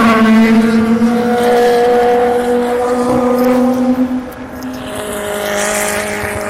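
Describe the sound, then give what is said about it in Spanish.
Passing cars on a street produce a steady engine drone with a strong low hum and layered overtones that holds for the whole stretch. The drone eases slightly near the end, and no one speaks. “Estoy dejando espacios en blanco para que oigáis los coches”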